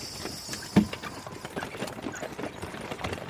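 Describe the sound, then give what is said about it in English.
Hooves clip-clop steadily as a horse draws a hackney cab. Many even, moderately loud hoofbeats fill the moment, with faint rattling mixed in beneath. “Can we take the hackney cab? Of course. Come on up.”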